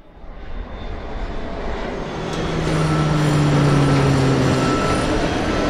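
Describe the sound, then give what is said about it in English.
Seismic noise from human activity such as driving, drilling, walking and flying forms a dense, low rumbling drone that swells louder after the first couple of seconds and then holds steady, with faint humming tones running through it. “It's the sound of seismic noise that humans create from activities like driving, drilling, walking, and flying.”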